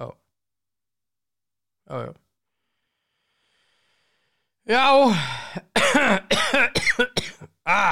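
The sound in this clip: A coughing fit: a couple of isolated coughs, then a dense run of harsh, repeated coughs with throaty, voiced gasps, loud against silence.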